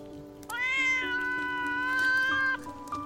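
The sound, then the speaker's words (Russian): An angry cat sitting under an awning lets out a long, drawn-out tonal yowl that lasts about two seconds and holds a fairly steady pitch. No voices are heard. “Кот, злобно фыркнув, убегает.”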